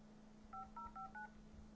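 A telephone number is dialed: four short, evenly spaced keypad tones, faint over a steady low hum.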